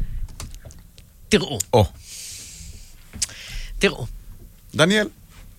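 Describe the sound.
A single word is typed on a computer keyboard, a quick series of light key clicks running under people talking.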